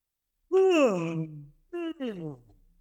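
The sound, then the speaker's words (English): A big, exaggerated fake yawn from a person, voiced and drawn out with the pitch sliding downward. A shorter second yawning breath follows after a brief pause. “So if you do a big fake yawn right now,”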